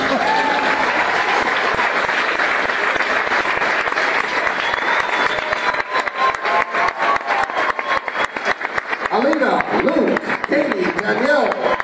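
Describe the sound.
A loud audience bursts into dense, sustained applause as eleven contestants are welcomed back onto the stage. The clapping stays steady throughout, and voices come in over it toward the end.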